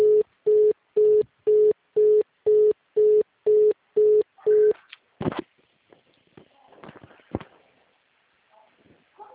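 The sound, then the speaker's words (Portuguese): Ten evenly spaced telephone line beeps sound while a call is transferred, each a short, steady mid-pitched tone, then the line gives way to scattered clicks and faint, murmured voices. “Aguarde um momento. Estamos transferindo a sua ligação.”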